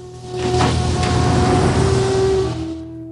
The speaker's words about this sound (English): The cars and van drive away from the house.